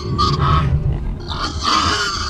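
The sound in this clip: Pigs grunt and snort in a loud, continuous, rough jumble of low, throaty sounds, with no clear pauses between the animals' calls.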